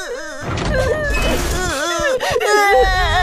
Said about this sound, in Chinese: 是谁在哭啊？